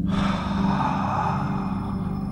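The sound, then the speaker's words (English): A deep, drawn-out breath taken during a guided meditation breathing exercise, in through the nose and out through the mouth, heard as one continuous soft airy rush lasting a couple of seconds, alone and without talk. “Let's go in through the nose and out through the mouth.”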